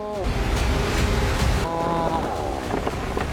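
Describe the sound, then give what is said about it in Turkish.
Wind rises at a logging site as early snow arrives, a loud, continuous rushing roar with tonal whistling or creaking layered over it. “Rüzgar artıyor.”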